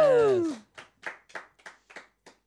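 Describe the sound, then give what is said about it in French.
Hand clapping to keep a rhythm: a drawn-out voice falling in pitch comes first, then several crisp, evenly spaced claps follow alone in a steady beat. “on enchaîne, mais on applaudit pour le rythme.”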